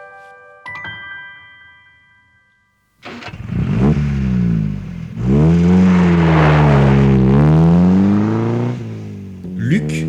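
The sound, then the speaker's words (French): A Porsche sports car roars at full speed along the left lane of a motorway. The engine drone is loud and sweeps up and down in pitch several times, after a few seconds of faint tones and near silence. “Et dans sa Porsche, et roule à toute allure sur la voie de gauche de l'autoroute.”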